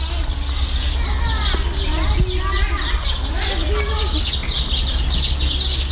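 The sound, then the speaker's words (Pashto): Children's voices at play near the old, half-ruined Zulmabad castle, a lively mix of calls and chatter with birds chirping throughout. “له کلا سره نږدې ماشومان په لوب بوخت دي.”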